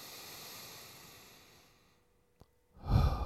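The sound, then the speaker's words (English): A deep breath is drawn in through the nose as a soft, airy hiss that fades over about two seconds. A brief click follows, then a louder breathy rush at the end. “Take a deep breath in through the nose.”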